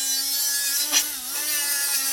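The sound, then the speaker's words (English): Welding on an aluminum wheelchair frame in a machine shop makes a steady, even electrical buzz with a low hum and stacked overtones. One brief hissing burst flares up near the middle. “A welder is working on an aluminum wheelchair frame.”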